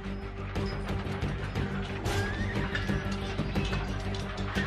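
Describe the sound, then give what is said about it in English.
A horse being ridden on approach to Winchester. Its movement forms a loud, dense, continuous rumble with irregular clattering throughout. “To enter Winchester in true Norman style, I'm approaching on horseback.”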